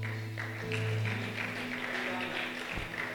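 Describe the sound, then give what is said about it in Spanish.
Faint, rhythmic applause from a church audience clapping for the Lord, set under sustained music and a talking voice. “¿Puede darle un aplauso al Señor?”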